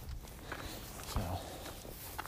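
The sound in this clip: Footsteps of someone out on a walk, a few soft, evenly spaced steps against a steady low background noise.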